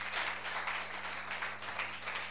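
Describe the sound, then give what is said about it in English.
An audience claps for God at a New Year's Eve watch night church service. The applause is a faint, steady, dense rattle over a low, constant hum. “So clap for God.”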